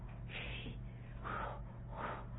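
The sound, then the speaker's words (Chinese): A group breathing exercise in a childbirth preparation class: three breathy, audible inhales and exhales, spaced about evenly, fairly faint over a steady low hum. “我们做的这个呼吸的训练。 All right, let's all do that together. 我们一起做这呼吸训练。”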